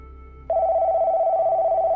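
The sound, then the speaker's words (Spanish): A telephone rings for an incoming call. After a moment of faint low noise, a steady electronic ring tone starts abruptly and holds, slightly pulsing, until the end. “Tenemos una llamada.”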